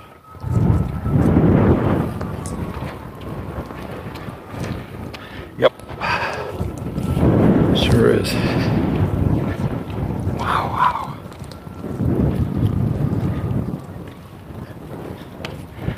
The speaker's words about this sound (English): I'm about to turn north along the north side of the park. And the wind will be streaming right in my face.